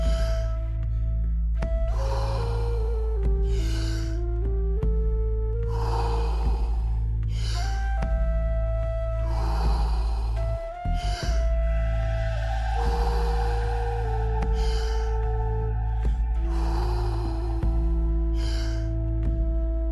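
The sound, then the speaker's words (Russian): Deep breathing in a guided exercise, with full inhales and exhales and no pause between them. Many rhythmic breathy whooshes repeat every couple of seconds over soft, sustained music. “Полный вдох. Отпускаем. Просто продолжайте. Никакой паузы между вдохом и выдохом.”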